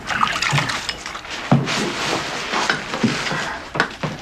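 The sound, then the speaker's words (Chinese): Hands are washed under running water, a steady splashing flow broken by irregular louder splashes and light knocks, with no talk. “快洗手。”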